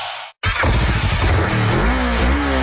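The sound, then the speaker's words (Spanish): A Boxer 150 motorcycle's new, stronger engine revs in a loud, continuous roar that starts abruptly after a brief silence near the beginning and holds steady to the end. “¿Escuchas eso? Es la nueva Boxer 150. No le teme al polvo ni a la carga pesada. Con su nuevo motor más fuerte”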